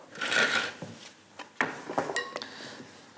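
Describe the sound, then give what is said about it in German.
Scraping and rubbing as dried potato pieces are tossed with oil in a bowl, with a few sharper clinks and scrapes over a quiet background and no talk. “Jetzt einfach durchschwenken. Jetzt kriegt man gleich schon so fast so eine Art Teig durch die Stärke und das Öl.”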